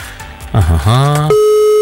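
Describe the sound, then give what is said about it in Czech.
A telephone dials a number, heard as a quick run of electronic tones with shifting, warbling pitch that settles into a steady, sustained tone at the end. “schválně zkusím vytočit telefonní číslo jedné z nich”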